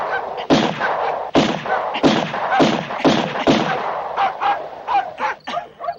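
Pistol shots fired in a film scene: a few sharp, loud cracks spaced apart, with a dog barking and whimpering around and after them.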